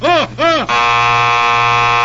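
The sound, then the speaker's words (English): An electric buzzer rung to be recognized gives two quick wavering warbles, then holds a long, loud, harsh steady buzz. “each man must ring his buzzer to be recognized.”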